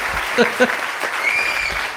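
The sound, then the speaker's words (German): Dense applause with steady clapping fills the short stretch at an even loudness, with a voice briefly heard over it. “Eine Feier und ein Applaus.”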